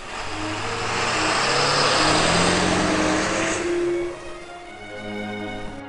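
A garbage truck drives away with a heavy engine roar and several gliding engine tones. The sound swells, then drops to a lower, steadier rumble near the end.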